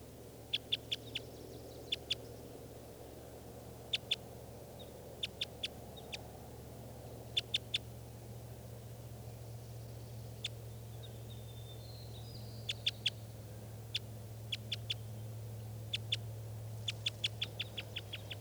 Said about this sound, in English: There's one bird here, lone bird, perched up in the top of a tall spruce.